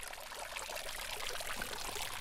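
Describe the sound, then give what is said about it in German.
A fountain splashes in front of a small town hall across from a church, giving a faint, steady patter of falling water with no clear breaks. “wo der Springbrunnen plätschert”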